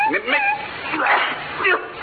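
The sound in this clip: A dog whining: a few high, wavering whimpers that rise and fall, with short breaks between them.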